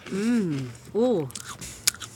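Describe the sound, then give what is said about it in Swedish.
Someone bites into a cracker with topping: a voice sounds first, then a few short, crisp crunches follow in quick succession. “Där tar han ett bett.”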